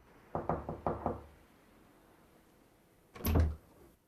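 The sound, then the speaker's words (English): A woman comes in and closes a door behind her. A few quick knocks are followed after a short pause by one solid, low thud as the door shuts, faint against a quiet room. “comes in and closes the door behind her”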